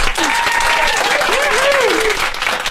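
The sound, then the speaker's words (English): A nice round of applause rings out, steady and full-bodied clapping from a crowd at an even loudness, with a voice speaking over it. “So a nice round of applause for all of you,”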